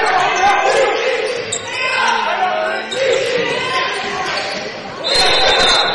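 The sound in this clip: Basketball dribbled on the court during a fast-break transition in a game, the bounces partly masked by steady crowd noise and ongoing talk.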